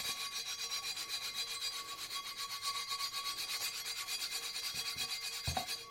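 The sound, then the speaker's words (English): An old emery board nail file rubs rust off the rim of an iron pot lid, producing many quick, even rasping strokes in a steady rhythm, fairly faint and alone. “I've got an iron pot lid that's got a bit of a rust around the rim. I've got an old emery board nail file because I couldn't find any sandpaper”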